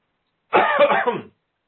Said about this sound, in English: I'm going to have to clear my throat.